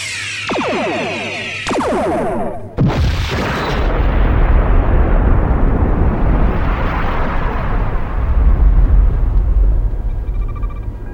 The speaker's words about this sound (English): Arm phasers and load all torpedo bays.